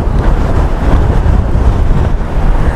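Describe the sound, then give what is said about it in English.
Heavy wind buffets the microphone beside Greenfield Reservoir, making a loud, continuous low rumble. It surges and dips irregularly throughout, with no voices over it. “And I do apologise about this wind.”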